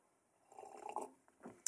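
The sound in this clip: Sipping of a cheap organic Pinot Noir wine from Trader Joe's: faint, soft slurping mouth sounds in a couple of short bursts, ending with a small sharp click.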